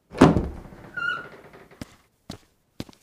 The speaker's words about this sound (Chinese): 上书房的门再次被打开，小太监跑出来。